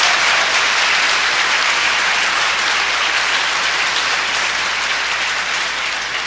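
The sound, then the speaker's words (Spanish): Sustained audience applause at an agricultural management symposium at a university, honoring students, professors and deans; dense, steady clapping stays loud and even for about six seconds with no voices. “yo pido un aplauso para los estudiantes, profesores y decanos que están presentes.”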